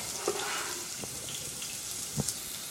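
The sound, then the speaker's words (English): Chopped onions frying in olive oil give a soft, steady sizzle, a quiet hiss broken by a few light pops and crackles. “Back to the bench scraper to scoop up these onions, and they're going into the oil.”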